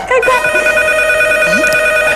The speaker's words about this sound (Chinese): 是大姐来的电话。